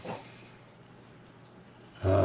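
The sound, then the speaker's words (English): Dogs snort and breathe heavily in a room, a soft, rough, snore-like rasp that runs steadily for about two seconds and ends in a louder burst. “Sorry for the dogs, folks.”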